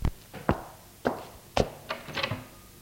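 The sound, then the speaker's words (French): Footsteps and knocking on a door, heard as a few irregular, sharp thuds and taps spaced apart, ending in a quicker cluster of lighter knocks, with no voices. “Ensuite, des pas, et on frappe à sa porte.”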